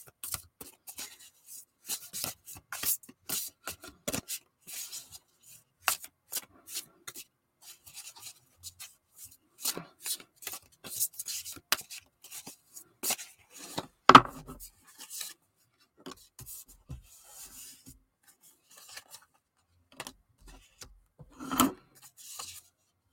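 Tarot cards being shuffled and drawn make dry, faint rustles, flicks and slides, scattered irregularly with a few sharper snaps and no talking.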